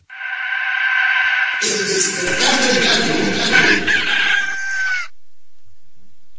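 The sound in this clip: A rooster crows loudly in one long, drawn-out call lasting several seconds, with rough clucking and cackling mixed in, then stops and leaves near silence.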